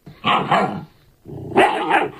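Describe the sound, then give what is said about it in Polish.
A German shepherd dog barking: two loud, deep bursts of barking separated by a short pause, alone with no talk. “Tak hałczy najbogatszy pies świata, owczarek niemiecki”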